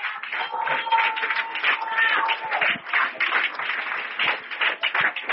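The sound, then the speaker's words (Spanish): Church audience applauding: dense, continuous clapping from many hands, a steady busy patter with uneven swells in loudness, heard alone without talk for several seconds. “Dele aplauso al Señor.”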